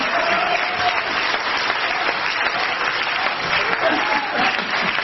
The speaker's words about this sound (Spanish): Un aplauso más raquítico para la alcalde de Benji,